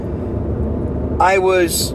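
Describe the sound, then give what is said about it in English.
Steady low rumble of a car being driven, heard from inside the cabin, a continuous dull drone that runs throughout while a voice begins talking over it partway through. “While we're driving in the car with nothing else to do, we thought we'd talk to you.”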